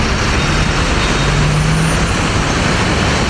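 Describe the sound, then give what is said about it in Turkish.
Dense city traffic noise in Istanbul as a convoy of cars weaves between lanes: a continuous, loud roar of engines and tyres on the road, with low motor hums running underneath and no single standout event. “Konvoydaki bazı sürücüler trafiği hiçe sayarak araçlarıyla peş peşe slalom yaptı.”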